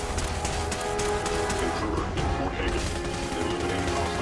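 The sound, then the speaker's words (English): Gunfire from the companion Nick in the video game Fallout 4: many rapid, sharp shots and cracks, packed densely over a constant noisy game soundscape. “Nick is shooting big time at something.”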